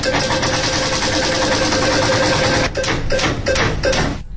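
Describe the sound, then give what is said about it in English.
A prize wheel spun for a birthday-month lottery draw, starting as a fast blur of clicking that slows into a few separate, louder ticks before it stops. “I've got the wheel to spin to see which month we draw out.”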